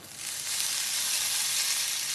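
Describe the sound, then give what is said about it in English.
A tablespoon of ghee sizzling as it heats in a pan, giving a steady, bright hiss that stays even and fairly loud throughout with no voices. “I'm heating a tablespoon of ghee.”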